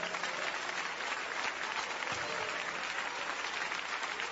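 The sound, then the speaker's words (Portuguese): A Pentecostal audience claps hands in praise during a worship service, a soft, continuous wash of many hands that holds at an even level throughout without pause or talk. “Pode louvar a Deus com as palmas.”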